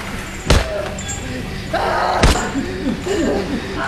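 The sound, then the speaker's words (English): A heavy cistern lid strikes a person in two sharp, loud thuds about two seconds apart, with strained vocal sounds rising between and after the blows. “He forces it from Zepp's grasp, punches him, then clobbers him with the cistern cover.”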